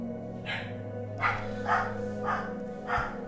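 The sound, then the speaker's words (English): A dog barks five times, evenly spaced and fairly faint, over a steady low hum, with no talking. “That's my dog. Sorry, guys, if you could hear that. That's my dog.”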